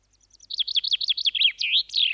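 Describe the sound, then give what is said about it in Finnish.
A willow warbler sings one short, clear phrase: a rapid run of about a dozen high, sweet whistled notes that drift gradually lower and end in slurred, downward notes. No other sound accompanies it. “Lintu on pajulintu, eli uunilintu.”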